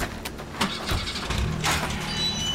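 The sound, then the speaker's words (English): A car engine starts and runs with a rough, steady rumble, and a few bumps and knocks sound over it. “Get in the car. We'll get to the gate. We're leaving.”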